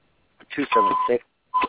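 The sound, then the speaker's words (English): Beeping on a phone line: two steady, mid-pitched electronic tones, one longer and one shorter, sounding over a person talking on the call. “Can you repeat that? Because of the beeping.”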